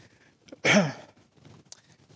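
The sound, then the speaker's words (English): A single deep breath, a short, fairly loud breathy rush lasting under half a second, with only faint, scattered sounds before and after it. “So, I will need to take several deep breaths”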